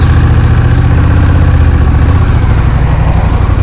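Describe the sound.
A cruiser motorcycle engine runs with a deep, steady low rumble and an even throb, loud throughout with no voices over it.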